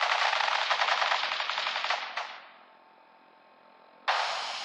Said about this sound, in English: Stop or we'll shoot. Men, open fire.